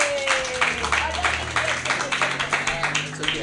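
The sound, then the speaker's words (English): An open-mic comedy audience applauding a comedian as he is introduced: fairly small, moderately loud applause in a steady, rhythmic pattern of claps. “Put your hands together for Billy Goss. Yay!”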